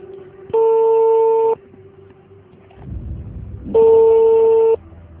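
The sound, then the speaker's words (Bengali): An outgoing telephone call rings out with two long, steady tones about two seconds apart, heard over a faint, constant background hum and low noise. “আমি সেজানকে phone দিতে চাই”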